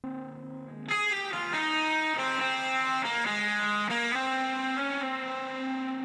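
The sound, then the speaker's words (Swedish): Electric lead guitar melody with a distorted, effects-laden tone, a single line of sustained notes that shift in pitch, steady and loud with no voices. “Så hans melodigitarr låter så här.”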